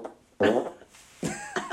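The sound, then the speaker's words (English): A person imitates a fart with the mouth in an elevator, making a few short, buzzy, raspy voiced bursts with brief gaps between them. “I'll wait until the elevator starts, and then I do like the fake fart”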